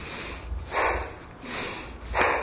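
A singing teacher demonstrates the wrong, over-controlled way to breathe while singing: three sharp, noisy inhaled breaths like sniffs, evenly spaced and fairly loud against a faint hiss.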